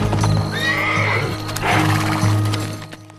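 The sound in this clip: Horses ridden by rangers across a rocky landscape, with the clop of hooves and a loud, high whinny rising over the steady hoofbeats.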